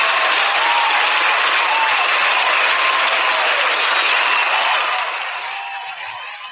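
Applause from a live audience: loud, thick, continuous clapping that stays level for most of the stretch, then tapers off near the end.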